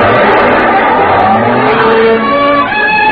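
A car corners fast and skids, turning a corner on two wheels: a loud, steady engine-and-road roar runs throughout, with high squealing tones from the tires rising through it.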